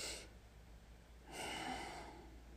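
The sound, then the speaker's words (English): A soft inhale, shown as a demonstration of gentle breathing: one faint, airy breath lasting a little over a second, with no other sound. “I'm going to demonstrate like this, so I hope the audio picks it up. But to softly inhale, you would just go,”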